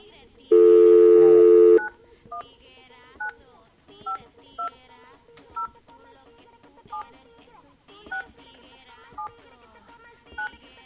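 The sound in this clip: Touch-tone beeps sound as a phone number is dialed to reach a ticket winner. A dense burst of key tones comes first, followed by many short, separate beeps at uneven intervals over a low background.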